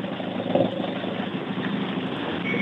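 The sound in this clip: A Citroën C2 rally car's engine runs at a steady idle at a rally in A Coruña, giving an even, continuous mid-pitched drone with one small bump in loudness early on and no voices.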